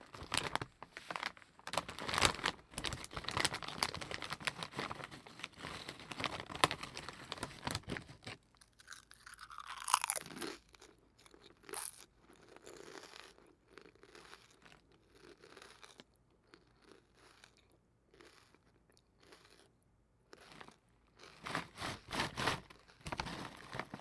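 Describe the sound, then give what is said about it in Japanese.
Crinkling of a snack wrapper and crunching of snacks being eaten: many crisp crackles and crunches in dense, irregular bursts that continue through the whole stretch, with no talking. “頑張ったらまたお腹減ってきちゃったから、またお菓子食べようっと。”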